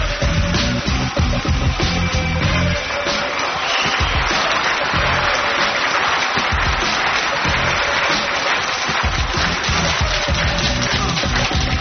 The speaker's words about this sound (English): So what do you say? Let's all get together and welcome him to the stand with a great big hand.